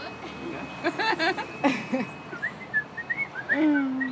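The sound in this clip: A person whistles in imitation of a small bird: a run of short rising chirps, then a longer held note, following a brief moment of talk at the start.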